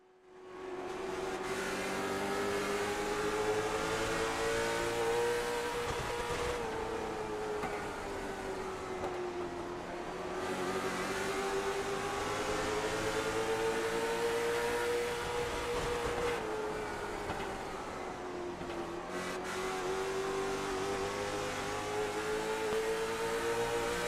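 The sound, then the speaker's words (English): A race car engine recorded by an onboard camera during a race, a loud steady drone that climbs in pitch as it revs and drops back several times. “Let's ride on board with JD Rutzer as he's working his way through and do a little bit of a crank it up.”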